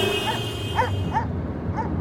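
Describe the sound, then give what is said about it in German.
Four short, high yipping dog barks in an uneven rhythm, moderately loud over a steady background hum, with no talk. “Hat denn hier nicht einer mal keine Töle? Besser ein Hund als eine Bürgerwehr.”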